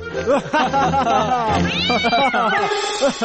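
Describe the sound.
A cat meows in several drawn-out, wavering calls, mixed in with talking voices.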